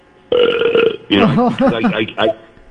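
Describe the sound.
A deliberate burp forced out on demand: one long, steady, low belch lasting under a second, followed by a stretch of talking.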